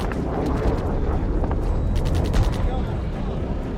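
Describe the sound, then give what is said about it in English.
Explosions and gunfire of a Chinese amphibious assault form a loud, continuous rumbling roar, with a cluster of sharp cracking bursts in the middle. “Chinese amphibious landings are preceded by a deluge of fire. Explosion roaring violently, shattering windows of buildings.”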